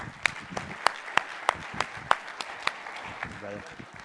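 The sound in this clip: Sparse applause welcoming a guest speaker at a church service, a steady series of sharp, evenly spaced handclaps over a low murmur, with a brief voice near the end.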